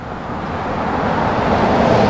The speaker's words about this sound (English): Cars whiz by what looks at first like a vacant city block off Lee Street in downtown's La Villa neighborhood.